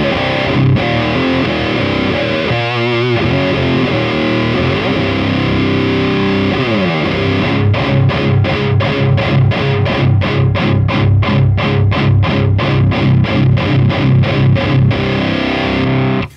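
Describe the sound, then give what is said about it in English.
Loud fuzz-distorted electric guitar through a fuzz pedal with its mid-range boosted, first ringing sustained chords, then a long run of fast, evenly spaced chugging notes that holds steady to the end. “So that's just straight fuzz, but we bring in some mid-range and we get a lot more clarity and a lot more like harmonic contact.”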